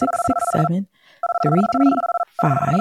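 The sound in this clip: A telephone ringing tone, a steady two-pitched electronic ring in three bursts separated by short gaps, with voices talking over it.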